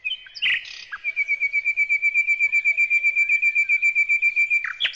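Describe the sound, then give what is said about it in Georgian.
A nightingale singing in a forest: a long, rapid trill of many evenly spaced, high, piping notes at a steady pitch, loud and clear, opening with a few brief separate chirps. “მართლაც ტყეში ბულბულის გალობა გაისმა.”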